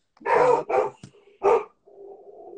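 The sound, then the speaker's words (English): Dog barking: three loud, sharp barks in quick succession, followed by a quieter, drawn-out whine. “sorry, that's the dog.”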